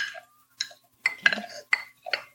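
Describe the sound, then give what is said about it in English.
A muddler crushes three basil leaves, three sliced strawberries and lemon juice in a glass, making a short series of sharp clinks and knocks at an irregular pace, separated by brief quiet gaps. “crush, and release all the juices from both the leaf, the three basil leaves, and the three sliced strawberries, and the lemon juice, and create kind of a puree.”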